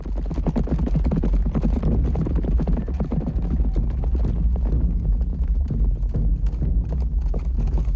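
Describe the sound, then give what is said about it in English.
A group of horses with riders galloping across a meadow, their hooves pounding in a dense, continuous, loud drumming that stays steady for the full eight seconds. “On the hillside down below them, a group of riders gallop across a meadow.”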